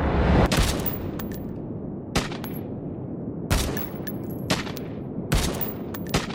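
Gunfire, with rounds fired as loud, sharp cracks at irregular intervals, some in quick pairs, each followed by a ringing tail before the next shot.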